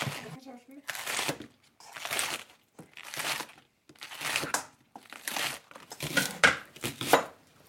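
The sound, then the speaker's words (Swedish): A knife finely chops spring onion on a board, the quick, crisp strokes arriving in several separate runs with short pauses between them. “Men du hackar lök väldigt fint”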